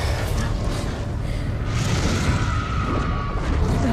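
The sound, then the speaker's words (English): A ceiling collapses in a burning building, with fire roaring and rubble falling. The sound is a dense, continuous rumbling roar that stays loud from start to finish. “and puts his arms around her as the ceiling continues to collapse. They're completely trapped by fire and fallen rubble.”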